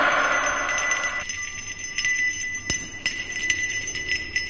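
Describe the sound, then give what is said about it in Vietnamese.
A hand bell is rung by an old man, producing a few bright, jingling strikes with high metallic ringing that lingers between them, with no talk. “Tay của lão rung lên một cái chuông”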